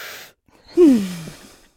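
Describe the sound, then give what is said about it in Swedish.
A deep breath: a soft, breathy inhale, then a pause, then a louder voiced exhale that falls in pitch like a sigh. “vi tar ett djupt andetag och sen kör vi vidare”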